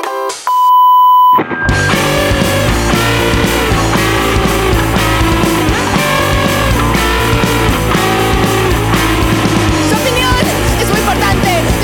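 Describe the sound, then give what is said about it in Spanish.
An answering machine gives its signal to leave a message: one steady electronic beep held for over a second, then loud music cuts in right after. “Deje su mensaje después de la señal.”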